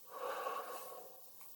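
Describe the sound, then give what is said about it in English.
A single soft, drawn-out breath during a guided breathing exercise, faint and alone, swelling and then tapering off over about a second. “Let's breathe in, breathe out,”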